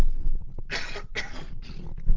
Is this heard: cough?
yes